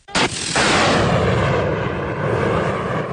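Anti-aircraft gunfire from an air-defense artillery unit engaging incoming targets in a drill: sharp loud blasts open into a continuous, dense roar of firing that stays heavy and unbroken to the end.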